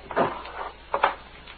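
A drawer being pulled open while someone searches for ink makes two short wooden scraping bursts, the second with a quick double knock, separated by a brief near-silence.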